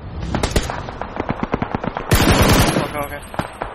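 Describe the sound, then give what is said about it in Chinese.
Rapid bursts of automatic gunfire ring out in a shooter video game as a lone player storms a bridge and takes out its defenders. Many sharp, quick cracks come in short clusters, with a denser, louder barrage midway. “他冲到桥上之后啊，几个点射把对方的守军就全给干死了。”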